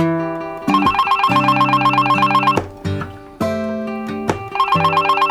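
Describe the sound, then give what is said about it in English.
A telephone rings with an incoming call, loud electronic trilling tones repeated in a few bursts separated by short pauses. “I know you ain't gonna answer this phone”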